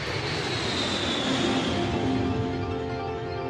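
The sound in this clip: A Concorde supersonic jet airliner roars in flight as a dense, steady wash of engine noise with a high whining tone that drifts slowly downward in pitch, heard alone at a constant level.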